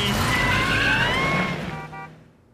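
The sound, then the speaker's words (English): A Word Girl dune buggy driving: a loud, revving engine with whining, gliding tones and a screechy, skidding edge. It tapers off over about two and a half seconds. “Huggy, take it away! An official Word Girl Dune Buggy!”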